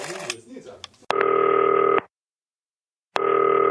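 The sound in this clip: Outgoing telephone call ringing: after a brief jumble of voices and noise, two loud, steady ringback tones sound, separated by about a second of silence, each flat and even.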